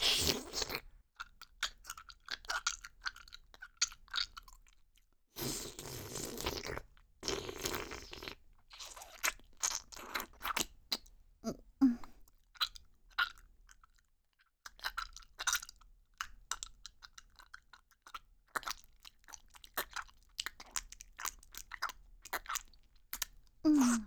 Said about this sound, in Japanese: おいしいからどんどん食べちゃうわね。